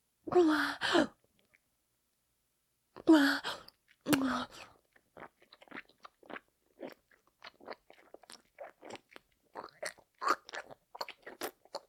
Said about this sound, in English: She's gonna fucking know if you groan like that again.